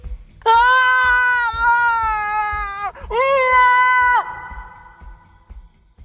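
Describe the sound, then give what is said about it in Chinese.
A shrill scream-like cat yowl rings out in the night at the Kaifeng prefecture office. It comes as two long, loud, high-pitched wailing bursts separated by a brief break, the second one shorter, and then it trails off into quiet. “深更半夜，开封府里传来一声惨叫”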